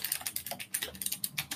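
A clicky mechanical keyboard is typed on, giving quick, soft, gentle clicks in an irregular typing rhythm. The keystrokes are faint and heard alone, with no talk.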